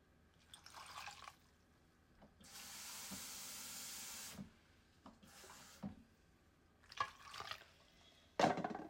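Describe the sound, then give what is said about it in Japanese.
Water runs into a kitchen pot holding home-grown, crooked eggplant. A soft, steady hiss lasts about two seconds amid faint drips and a few light clinks, with no talking. “ここにお水を入れて”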